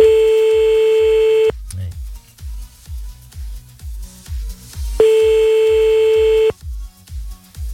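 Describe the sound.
A telephone ringing tone sounds while a radio call is placed, with two long, even ring tones separated by a pause, set over a steady pulsing beat.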